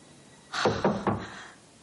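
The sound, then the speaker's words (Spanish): Knocking on a door in a thriller film, three firm knocks in quick, even succession, moderately loud against a quiet background. “De pronto alguien llama a la puerta.”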